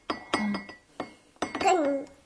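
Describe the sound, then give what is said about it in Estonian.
Bright glassy clinks come from a glass rattle toy shaped like a flower, with a few sharp separate clinks. A voice is heard briefly near the end. “Kilikoll teeb meie lillake siin. Kilikoll. Kilikoll, see on klaasist.”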